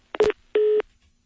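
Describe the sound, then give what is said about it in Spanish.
Two electronic tone beeps on a telephone line after a call drops: a short buzzy burst, a brief pause, then a longer steady tone, both moderately loud and followed by silence. “Se cortó la llamada con Alejandro Moreno, a ver si lo recuperamos”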